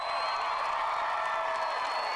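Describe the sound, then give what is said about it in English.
A crowd cheers and whoops at Dublin Castle after a referendum result, a dense, steady roar of many voices that stays fairly faint and even throughout. “And this afternoon, Dublin Castle was packed with those who wanted to shout about it.”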